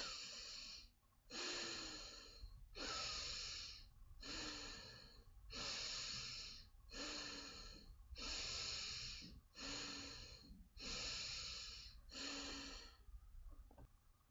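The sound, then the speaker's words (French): Slow breathing in and out through the nose during a guided breathing exercise, a soft airy rush repeated in many even, regular breaths that stay quiet and alone, with no talk. “respirez par le nez, toujours dans le même rythme”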